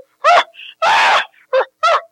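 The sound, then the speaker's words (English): A person imitates a screaming chimpanzee, with a voice mimicking the ape's calls. Four loud, wailing, high-pitched hoots and shrieks come in quick bursts, the second one longest, with brief quiet gaps between them. “Jumping. screaming like a chimp.”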